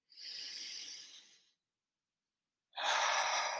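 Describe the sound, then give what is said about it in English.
Deep breathing during a guided relaxation exercise: two long, airy, hissing breaths, separated by a quiet pause, with no talk over them. “Breathe in peace and breathe out the pressure.”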